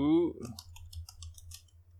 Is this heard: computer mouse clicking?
yes